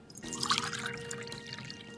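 Water is poured in a steady, quiet trickling splash that continues unbroken for about two seconds, faint and heard on its own.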